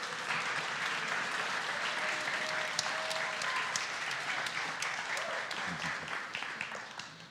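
A church audience applauds to welcome leaders onto the stage, with fairly faint, continuous clapping that stays even and steady throughout.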